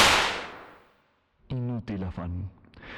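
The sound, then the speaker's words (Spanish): A firing-squad volley of gunfire: one loud, sharp blast that decays over about a second into silence. A voice is heard after it. “¡Carguen! ¡Apunten! ¡Fuego!”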